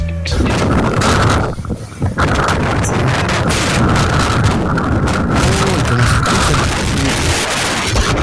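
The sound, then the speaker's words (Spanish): Strong wind blowing through a city makes a loud, steady roar with rough buffeting gusts across the whole clip. No voices are heard. “Increíble el viento, increíble, increíble el viento. Impresionante, así se está sintiendo hoy día en la ciudad.”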